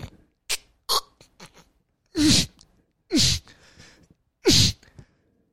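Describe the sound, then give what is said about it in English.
A voice imitates forcing air through a clogged nose while lying on the back trying to sleep: a few short nasal puffs, then three loud, harsh snorting bursts with brief silences between them. “I can't breathe. So, literally, at 3:35 in the morning, I'm doing this. I'm trying to sleep. Ah! Because I can't breathe. Now I'm on my back going...”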